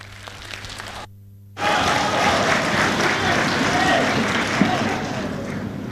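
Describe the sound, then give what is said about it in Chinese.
Audience applause at a live crosstalk comedy show: a short hush, then loud, sustained, dense clapping from a crowd that holds steady and eases off slightly toward the end. “感谢大家的掌声， 谢谢您的热情。”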